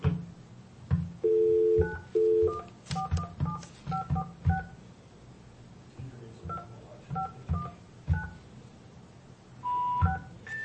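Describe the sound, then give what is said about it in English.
Telephone keypad dialing tones: a quick series of short two-tone beeps in irregular bursts, some held slightly longer, with a further tone near the end. “I wonder, do I, if I dial 417 on a 546? Don't dial 417 on it.”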